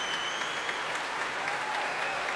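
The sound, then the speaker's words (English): Dense, continuous applause from promenaders and the Royal Liverpool Philharmonic Orchestra at a Proms concert as the conductor returns to the platform. The bright patter of clapping runs on steadily with no pauses. “Walking back onto the platform to the cheers of the promenaders and the applause of his own orchestra. Music stands being tapped enthusiastically.”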